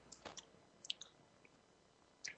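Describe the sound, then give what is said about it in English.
Faint, crunchy chewing of food with a shell: a few scattered crisp bites and small clicks separated by quiet gaps. “It sounded like it has a shell on it when you popped it. Did you have a shell? Crunchy. I'm chewing on it now.”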